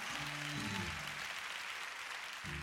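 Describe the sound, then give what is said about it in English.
A church audience clapping their hands during worship, a quiet, even patter of clapping throughout, with faint low sustained tones near the start and again at the end. “Come on, clap your hands and praise the”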